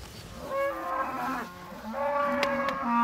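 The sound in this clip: A herd of cattle with calves lows in several moderately faint, drawn-out moos with a few sharp clicks between calls.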